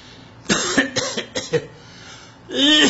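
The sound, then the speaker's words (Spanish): A person coughs in a short series of harsh bursts, then a voice starts to speak. “Nosotros también tosemos, sí.”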